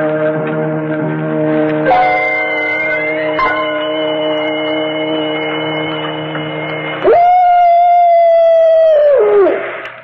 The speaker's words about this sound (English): That was merely the soul of a wolf passing by the Purgatorium.